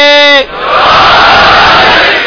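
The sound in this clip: A crowd answering the Naara-e-Haideri chant: a single voice calls out briefly, then many people roar back in a loud, sustained shout that swells and holds for about two seconds.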